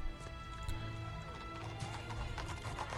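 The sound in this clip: Horses clip-clopping and whinnying as a king and his riders arrive in a film scene; brisk hoofbeats run throughout, and a horse neighs.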